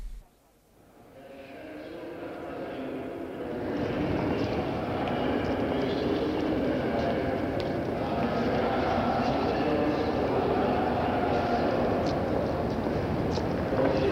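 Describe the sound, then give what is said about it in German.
Ambience of a bustling main railway station concourse in Munich: a dense, steady wash of noise and indistinct crowd murmur rises out of a brief quiet opening and then holds loud and even throughout. “In München auf dem Hauptbahnhof, also da war ein unwahrscheinlicher Betrieb.”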